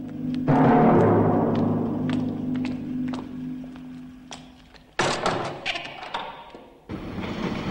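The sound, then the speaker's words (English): Hearse doors being shut by two orderlies in the open air after stowing a coffin: two heavy thuds, the second following after a short pause, over a steady low hum and scattered light ticks and knocks. “Having stowed the coffin inside, the two orderlies shut the hearse doors and then go back inside.”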